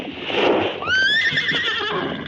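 A horse gives a long, wavering whinny that rings out high and fairly loud for over a second, after a brief rush of noise.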